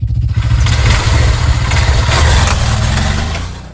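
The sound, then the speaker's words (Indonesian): A new motorbike's engine runs with a steady, loud, low throbbing rumble that holds evenly and then eases off slightly near the end. “Wih, motor baru nih.”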